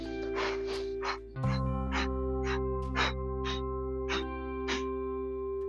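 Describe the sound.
Rapid breathing exercise with quick inhales and exhales, many short, breathy puffs in a steady fast rhythm over a constant tonal drone.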